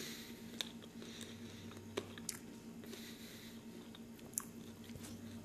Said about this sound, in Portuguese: é só um episódio comendo uma goiaba mesmo. E eu terminei minha goiaba.